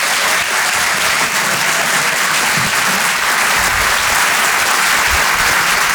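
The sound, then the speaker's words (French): Audience applause at a comedy show welcoming a stand-up comedian to the stage: dense, loud, steady clapping that holds at an even level for about six seconds, with no voices over it. “Faites un maximum de bruit s'il vous plaît pour Régis Maillot.”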